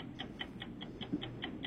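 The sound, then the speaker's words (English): A quiz game timer ticks in a steady, quick run of about five light, high clicks per second, faint and alone without any talk. “we're going to start your timer”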